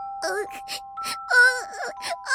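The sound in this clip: A wailing, moaning cry in several short, wavering bursts, fairly high in pitch, with steady electronic tones humming underneath throughout.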